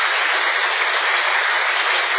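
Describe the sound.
Applause from an audience honouring a guest at an evening gathering: a dense, unbroken patter of clapping that sounds muffled and narrow, holding at a constant loud level throughout.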